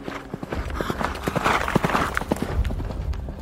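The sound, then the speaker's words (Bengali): Hoofbeats of a horse carrying a lone rider along a road, a quick, steady clip-clop rhythm of many hoof strikes, fairly loud and without talk. “এক যুবক ঘোড়ার পিঠে চড়ে বিষ্ণুপুর থেকে মান্দারণের পথে চলেছেন একা”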